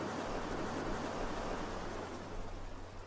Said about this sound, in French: et poursuivez sur ce rythme en vous aidant du bruit des vagues.